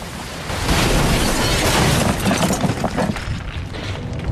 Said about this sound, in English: the force causes the glass to crack. It smashes and is pulled into the tunnel, crushed to smithereens